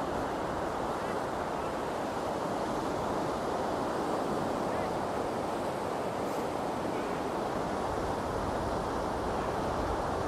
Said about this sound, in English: Tides coming in. What an awesome sound.